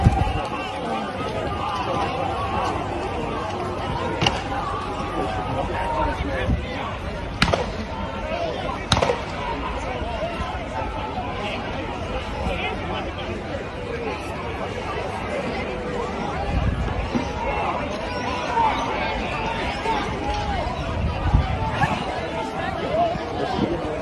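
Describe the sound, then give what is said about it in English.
Protesters in Melbourne, Australia running from advancing police: a loud, steady hubbub of crowd voices and hurried footsteps, broken by a few sharp knocks that stand out from the din. “Yeah, they're moving in. Here's from another angle as the protesters run away and the cops come.”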